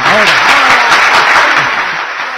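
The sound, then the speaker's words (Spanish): Applause sound effect of a crowd clapping, a loud, dense patter that runs steadily and eases off slightly near the end, with a voice audible within it. “Mira cómo aplaude la gente.”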